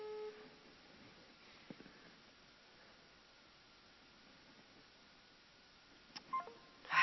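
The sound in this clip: A telephone number is dialed on a keypad, producing a few faint, brief tones over a quiet background hiss, with a slightly louder cluster of tones near the end.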